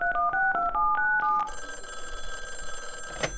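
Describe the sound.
A telephone number being dialed: a quick series of about six sharp touch-tone beeps, each a paired chord, followed by a steady, buzzing ring tone that holds to the end, with a brief click near the close.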